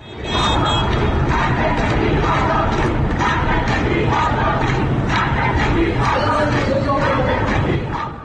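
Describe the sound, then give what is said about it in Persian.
Lawyers protest in front of the Central Bar Association building in Tehran, October 2022, against state violations of rights and freedoms. A large crowd chants and shouts in a steady, loud, unbroken mass of voices from start to finish. “این صدای وکلای دادگستری است. مقابل ساختمان کانون وکلای دادگستری مرکز در تهران در 20 مهر ماه 1401 در اعتراض به تعدی و تجاوز حکومت به حقوق و آزادی‌های”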